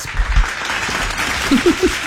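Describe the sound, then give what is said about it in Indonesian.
Hand clapping and applause during a morning programme: a steady wash of claps with a few low thumps and several short pitched bursts near the end. “Tiba dah tepuk tangan.”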